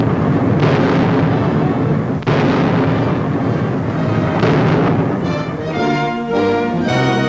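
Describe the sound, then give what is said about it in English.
Chinese troops fire shells from mortars in wartime, producing a loud, continuous booming roar with a few sharper blasts standing out through the dense rumble. “soldiers of China have waged war on the other side of grim mortars like these. Now China has the shells, the equipment, the communication lines, and the order is fire.”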